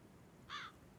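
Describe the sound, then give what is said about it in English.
A single short, harsh bird squawk rises out of a desert setting over a steady background hiss, then fades back into it. “There's a bird squawking”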